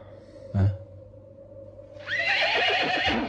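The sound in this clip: A horse neighs once, loud and drawn out in the second half, after a brief low thump earlier in an otherwise quiet stretch.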